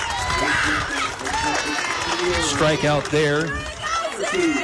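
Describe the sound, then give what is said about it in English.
Baseball fans of the Clarksville side cheer from packed standing-room stands in the top of the tenth inning, a steady roar of crowd noise running beneath a man's continuous play-by-play talk. “As you can hear the Clarksville fans behind me.”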